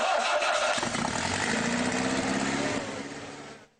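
A Citroën BX car engine starts up. A loud, dense mechanical roar holds steady for about three seconds, then fades out quickly.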